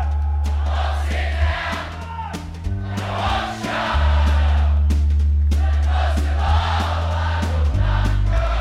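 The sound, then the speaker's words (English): Audience singing a chorus together at the 2013 Newport Folk Festival: loud, sustained massed voices swelling in repeated phrases over a steady low instrumental accompaniment. “That's a beautiful sound. You know what that is? That's the sound of people singing together,”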